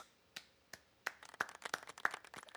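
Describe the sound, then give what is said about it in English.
A small round of applause for Larry, the cat serving as Chief Mouser at the UK Prime Minister's office: a few isolated claps at first, then a quicker patter of light clapping from a small group. “A little round of applause. Hey, a little round of applause for”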